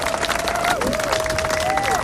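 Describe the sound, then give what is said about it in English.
An audience applauds performers with dense, steady clapping and crowd noise throughout. A voice can be heard through it. “round of applause to the performers and the beautiful spirit that it brings for us this morning”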